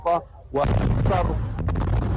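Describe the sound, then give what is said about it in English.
A deep, rumbling explosion from an Israeli airstrike on a refugee camp marketplace in central Gaza. It starts as a heavy low boom and rolls on continuously for over a second, with a voice over it. “more blasts are heard and he flinches.”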